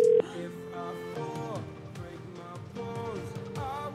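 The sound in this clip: One short, loud electronic beep as a voicemail starts playing, followed by a quieter voice speaking.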